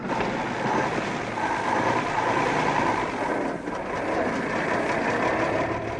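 A car engine runs as the car pulls away from a starting line, giving a continuous rough mechanical drone at steady loudness with no voices.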